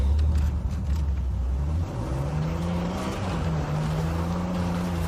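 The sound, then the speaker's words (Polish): A cart rolls along in a video game, a continuous low motor-like drone with a rough, rumbling texture that holds steady for the whole clip, with no talk. “siadamy do tego wózka i jedziemy”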